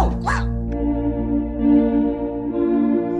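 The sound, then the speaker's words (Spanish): A cartoon detective dog gives a short yipping bark near the start, followed by a steady, sustained harmonic tone that holds to the end. “Mira, Lisa, Canito, el perro detective.”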